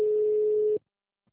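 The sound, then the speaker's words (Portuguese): A telephone busy tone after a dropped call to a Santander bank branch: a single steady, mid-pitched beep that holds for under a second and cuts off sharply into silence. “Acho que a ligação caiu. Caiu.”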